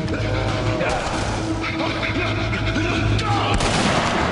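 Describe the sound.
Gunfire and blasts from a shooting video game form a dense, continuous stream of many rapid shots over a rumbling low background.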